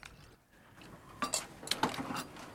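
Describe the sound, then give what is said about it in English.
Faint clinks of dishes and cutlery as an old man serves up three bowls of stew at a dinner table, a few light chinks after a quiet start. “A moment later, they're both sitting at a dinner table as the old man serves up three bowls of stew.”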